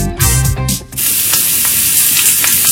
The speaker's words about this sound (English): Hear that? That's the sound of a premium steak sizzling to perfection.